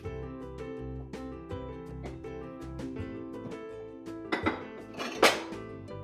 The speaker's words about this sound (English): I'm going to grab a bowl for the banana.